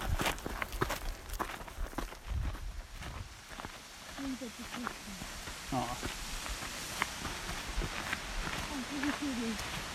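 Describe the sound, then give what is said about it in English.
Footsteps of hikers walking along a relatively open trail as it dips into forest: many soft, steady steps with occasional sharper crunches, fairly faint and continuous throughout. “So, we're walking along a relatively open path and just dipped into some forest.”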